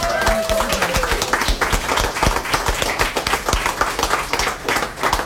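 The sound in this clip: Audience applause at a live event: dense, continuous clapping from many hands, loud and sustained throughout.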